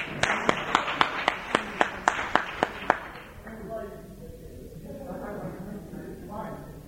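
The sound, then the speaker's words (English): Applause from an audience: a quick, steady run of about a dozen sharp, loud claps, then a voice talks over softer background noise. “A round of applause for”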